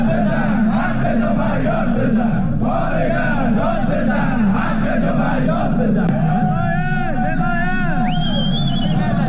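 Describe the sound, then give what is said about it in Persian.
A loud crowd of striking home-appliance factory workers and Sarma Afarin company staff chants slogans at a protest rally in Alborz industrial town, Alvand, Qazvin. Dense massed voices roar steadily throughout. “تصاویر منتشر شده، کارگران کارخانه لوازم خانگی و کارکنان شرکت سرما آفرین در شهر صنعتی البرز در الوند قزوین دست به اعتصاب زدند و در تجمع اعتراضی خود شعارهایی سر دادند.”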